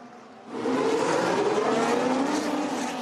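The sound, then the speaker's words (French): Formula One race cars, Ferrari among them, roar at the start of the United States Grand Prix. A dense, high-revving engine din swells in after a quieter opening and holds loud and sustained to the end. “Carlos Sainz en pôle, Grand Prix plein d'espoir pour Ferrari, espoir douché dès le premier virage. Est-ce que la Ferrari va pouvoir garder de la vitesse à l'extérieur”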